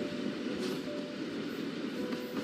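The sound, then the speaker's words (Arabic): A train approaching a station gives a steady, moderately loud low rumble with faint rolling clatter and a thin, constant high whine running throughout. “أخيرا بدأ القطار يقترب من الجنة الموعودة. معذرة، أعني محطة سيدي جابر.”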